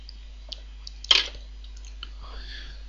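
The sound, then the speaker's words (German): A sip of coffee taken between remarks: one short, moist slurp stands out, with a few faint mouth clicks before and after against a quiet, humming background. “Ich nehme noch einen Schluck Kaffee vorher.”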